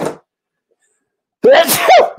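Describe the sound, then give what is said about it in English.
One loud, sharp sneeze bursts out after a brief voice fragment and a short silence, with a quick intake followed by a forceful release. “I'm about to sneeze any second.”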